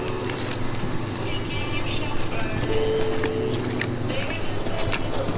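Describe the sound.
Someone bites into and chews a piece of chicken bacon, with soft, irregular crunchy clicks under people talking.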